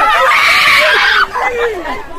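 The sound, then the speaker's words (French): Students at a secondary school in Bingerville, Côte d'Ivoire, shout and scream with joy as BEPC exam results are posted: a loud burst of high, overlapping cheering voices that eases after about a second into softer crowd babble. “D'où ces cris de joie pour certains et ces inquiétudes pour d'autres.”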